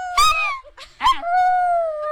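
Dogs howling: a few short, whining yelps lead into a long, steady, high-pitched howl that holds its tone to the end, loud and alone.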